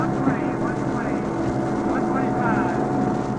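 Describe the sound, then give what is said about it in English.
Propeller aircraft engines roar steadily during a takeoff run on the Ladd Field airstrip, a loud, continuous, heavy drone with rough buffeting noise throughout. “We have the idea that just about any moment now, the wheels will be off the ground, off the Ladd Field airstrip.”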